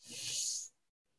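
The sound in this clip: A deep inhalation during a solar pranayama breathing exercise: one steady, airy hiss through the nose that lasts under a second, then near silence.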